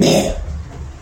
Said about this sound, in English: Sorry about that gross sound. But something is all in my throat.